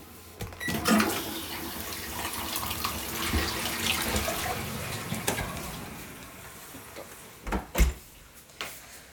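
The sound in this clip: Toilet flushing: a fairly quiet, rushing and gurgling water noise that starts about a second in, runs steadily and gradually eases, with a few dull knocks near the end.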